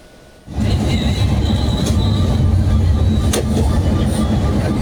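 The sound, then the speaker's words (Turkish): Interior rumble of an intercity passenger bus on the Van–Bursa route cruising on a highway: a quiet half second, then a loud, steady low drone with faint scattered rattles and clicks. “işte bu görüntüler Van ve Bursa seferini yapan bir otobüsün içerisinden. Görmüş olduğunuz gibi otobüs seyir halindeyken, otobanda seyir halindeyken yolcu otobüsü değişimi yapılıyor.”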